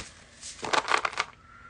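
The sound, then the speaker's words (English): A card drawn from a sacred symbols oracle deck makes a short papery rustle and flick, a brief scratchy burst lasting about half a second, heard alone against quiet. “Let's pull a card. Let's pull something from the sacred symbols for the collective.”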